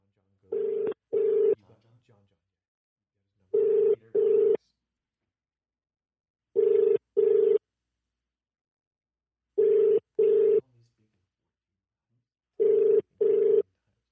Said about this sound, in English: So you're gonna call first.